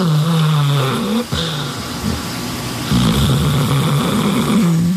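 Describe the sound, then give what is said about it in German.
Deep, droning snoring from Katja, a bear hibernating at Bärenpark Worbis. The loud, continuous low rumble has rough tonal breaths and a brief break partway through. “Nämlich Katja ist der erste Bär im Bärenpark Worbis, der jetzt Winterschlaf macht. Und da würde ich doch sagen, schalten wir uns mal kurz live rüber. Da müssen wir aber ganz leise sein.”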